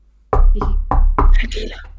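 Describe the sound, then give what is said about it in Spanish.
Knocking on a door during a Dungeons & Dragons tabletop game session sounds as four sharp, evenly spaced raps, loud and close, with a faint voice trailing after the last one. “Llamáis a la puerta.”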